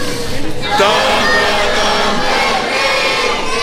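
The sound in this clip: An audience at a live show in Mexico sings a song at a full shout, forming a dense, loud, continuous wall of many voices with no break or drop in volume.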